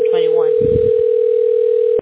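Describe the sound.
A telephone dial tone as a phone is being called: one steady, unbroken electronic hum at a fixed pitch, loud and constant, with a brief voice over the start, cutting off sharply at the end.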